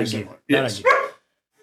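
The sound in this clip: Dogs barking in a few short, loud, harmonic bursts close together, then falling silent.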